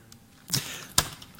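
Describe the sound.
Two sharp whooshing snaps of arrows shot in a video game, about half a second apart, with nothing else over them.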